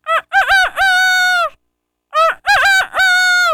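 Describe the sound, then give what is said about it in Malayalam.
A rooster crows loudly twice, each crow a strong, harmonic call with a rising start and a long sustained ending, separated by a brief silence. “അടുത്തത് പൂവാങ്കോഴി.”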